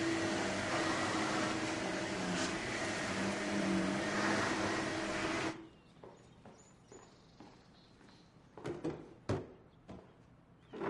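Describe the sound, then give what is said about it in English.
A vacuum cleaner pushed back and forth over a rug gives a steady, loud, whooshing roar that cuts off abruptly midway, followed by quiet, scattered knocks and clicks. “She pushes a vacuum back and forth over a rug.”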